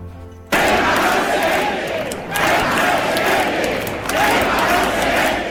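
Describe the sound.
A large crowd chants at a mass solidarity rally for the people of Ceuta in Mercado Chico square. Loud chanting starts abruptly after a quieter first half-second, then rises and falls in rhythmic swells.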